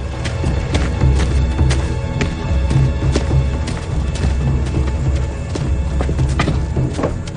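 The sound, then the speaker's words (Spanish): Horses pulling a wagon clip-clop along in a steady, repeated hoofbeat rhythm, many hard knocks over a low rumble, with no voices. “El agente fustiga a los caballos y reemprende la marcha.”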